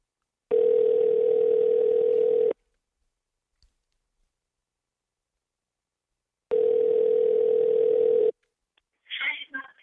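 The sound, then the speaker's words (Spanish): Ringback tone of an outgoing telephone call: two long, steady buzzing rings of about two seconds each, separated by a long silence, followed by a voice briefly answering. “Está llamando en estos momentos.”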